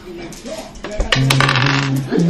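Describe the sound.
Dice clatter onto a table during a tabletop role-playing game, a few sharp rattling clicks over voices talking.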